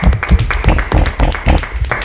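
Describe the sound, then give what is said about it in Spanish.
Applause from a school audience welcoming visitors to a special program, loud and energetic, with irregular bursts of clapping throughout. “Bueno, ese es un aplauso de alegría y de que estáis muy motivados a participar en este programa especial”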